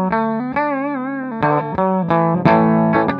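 Electric guitar played through a Quilter amplifier, its custom Strat-style pickups giving an effected, slightly distorted tone. A few sustained notes and chords ring out in turn, one held note wavering with a chorus-like shimmer.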